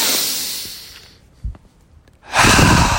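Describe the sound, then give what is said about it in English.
Breathing during a breathing exercise: a breathy hiss fades over the first second into a quiet pause broken by a small click, then a deep, loud breath drawn in through the nose carries to the end. “And the deep breath, just a quick one. Now, deep breath would just be in through the nose,”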